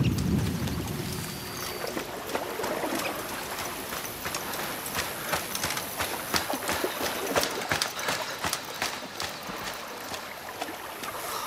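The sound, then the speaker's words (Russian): Rushing, splashing water where a camouflaged boat waits, with a broad noisy wash broken by many irregular knocks and slaps that rise and fall in loudness. “Что за шум? Это вода, а значит нас ждет замаскированная лодка.”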